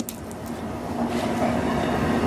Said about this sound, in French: Il y a un train. Regarde le train. Il vient en Italie.